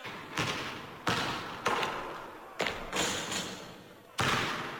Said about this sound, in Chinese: 朱总司令今日理万机，好不容易抽点时间走上球场，蹦蹦跳跳投几个球，大家怎能穷追猛打？